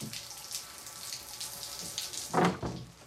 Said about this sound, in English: Are you okay with the hot water? She opens the door and spies him behind the shower curtain.